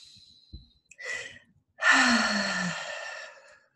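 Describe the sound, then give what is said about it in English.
Deep breaths taken during a guided breathing exercise: a short, soft intake of air, then a long, audible exhaled sigh with a low voiced hum that drifts downward. No one talks. “So we're going to take some breaths.”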